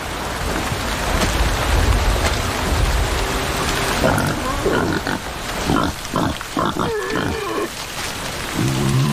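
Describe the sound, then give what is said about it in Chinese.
Wild boars grunting and squealing as they squabble over food during heavy rain. A steady hiss of rain runs throughout, and a burst of harsh, overlapping squeals and grunts fills the second half. “野猪有时会为争夺食物发生争执。”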